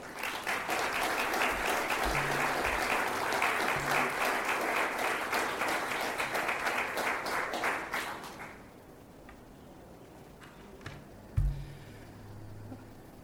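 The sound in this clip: Audience applause welcomes a speaker to the stage at an evening event: dense, steady clapping for about eight seconds, then quickly dying away into near quiet.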